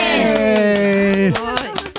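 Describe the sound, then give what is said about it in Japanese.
Group clapping hands together on cue: a voice calls the count-in, then a ragged burst of hand claps breaks out in the second half. “じゃあ行きましょうか、拍手、せーの”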